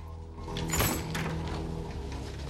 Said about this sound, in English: closing the door behind him